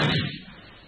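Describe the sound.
A pistol shot fired at a wall gives a single sharp report that decays quickly into a short, fading tail.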